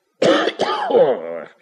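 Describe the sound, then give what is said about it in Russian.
A man with a cold coughs in two voiced, rasping bursts, a short one followed by a longer, throaty one that trails off. “Аристарх Иванович запутался, встал и, отвернувшись к окну, начал кашлять. Кашель у меня, братец.”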